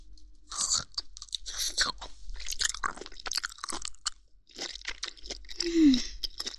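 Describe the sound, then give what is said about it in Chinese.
Wet, crunchy chewing and biting of meat with gravy, a series of irregular crisp bites and mouth sounds separated by brief pauses. “肉汁儿和人肉的清香混合在一起，太上头了，忍不住了。啊，再吃一口。”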